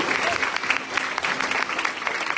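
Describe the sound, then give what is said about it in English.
A church gathering gives a dense round of applause, steady clapping from many hands that holds at an even, moderately loud level for the whole stretch. “We give these 9 guys a round of applause.”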